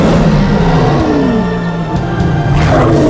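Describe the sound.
A lion roars across the savanna in an animated film: a loud, rough, sustained roar with a deep growling body that carries on for about three seconds.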